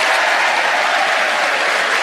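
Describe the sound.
Studio audience applauding to welcome the four panellists of a comedy panel game, a dense, steady wash of clapping that holds at full volume throughout.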